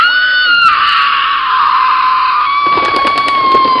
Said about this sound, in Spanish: María soltó un grito que retumbó en toda la selva, provocando una desbandada de pájaros en todas direcciones.